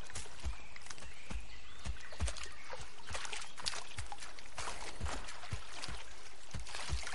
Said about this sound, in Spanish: Mowgli llena una corteza de coco con agua y se limpia las pantorrillas